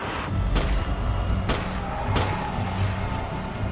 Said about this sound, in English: He pulls out a 9mm handgun and fired a number of times.